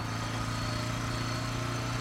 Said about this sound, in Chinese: 有车来。